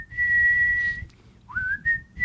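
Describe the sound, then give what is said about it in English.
A person whistles a tune badly: a long steady high note, a short pause, then an upward slide into uneven, wavering notes over a low background rumble. “Whistle really badly.”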